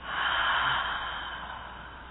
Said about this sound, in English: Another deep breath in and out.